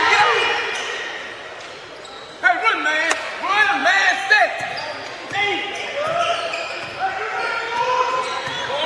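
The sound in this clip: Basketball dribbled on the court during an Aggies game, a run of sharp bounces thudding under a commentator's voice and crowd noise.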